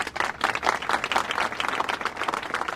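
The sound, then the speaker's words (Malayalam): Applause at a quiz event after a correct answer: steady, dense clapping from many hands, moderately loud and sustained throughout. “ശരി ഉത്തരം നൽകിയ മമത കോയക്ക് ഒരു നല്ല കയ്യടി.”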